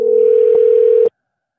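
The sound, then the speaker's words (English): Ringback tone of an outgoing telephone call: one steady, loud electronic tone that holds for about a second and then cuts off abruptly into silence. “No voicemail on this one. Phone just ringing somebody out of bed here.”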